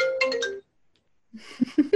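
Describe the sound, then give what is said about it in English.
A telephone rings with a short melodic ringtone of a few bright tones that stops abruptly, followed by a brief silence and then fainter mixed sounds. “Oh, phone ringing. Give me 2 seconds. I got the thought. I just got to turn off the phone.”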